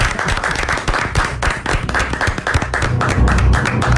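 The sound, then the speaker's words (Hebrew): Applause from an audience at a religious quiz contest: many hands clapping in a dense, loud, continuous patter of sharp claps that holds steady for the whole stretch. “אני הייתי מציע שנפתח במחיאות כפיים.”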